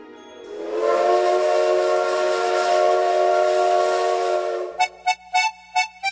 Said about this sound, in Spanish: Este tren sigue haciendo chucu chucu chucu chucu chucu chucu chucu chucu chucu chucu chucu chucu cha para seguir a través de las vías